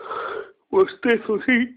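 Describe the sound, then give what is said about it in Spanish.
A man's long, breathy yawn, airy and drawn out over the first half second, then a brief pause before he begins talking. “bostezo, sí”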